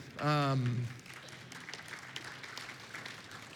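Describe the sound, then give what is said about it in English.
Scattered audience clapping at a church gathering that follows a short, loud voice at the start and continues as a soft, fairly even patter. “So I guilted some of the rest of you into clapping too.”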